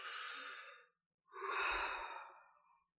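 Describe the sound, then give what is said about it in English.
A deep breath taken during a talk: two long, airy breath sounds separated by a short pause, the second fuller and slowly fading, with no speech. “So, here we go. We're going to take a deep breath.”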